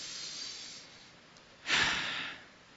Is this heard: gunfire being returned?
no